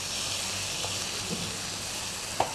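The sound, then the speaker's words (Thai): Shrimp stir-frying with roasted chili paste in a hot pan, giving a steady, even sizzle and hiss throughout, with a couple of brief sharp clicks near the end. “ก็ผัดให้น้ำพริกเผาเข้ากันกับกุ้ง”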